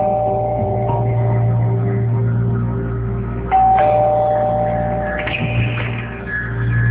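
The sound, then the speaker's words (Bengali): A doorbell rings at a home's front door, sounding a few clear, bright chime tones partway through over a steady low hum. “দরজায় bell দাও”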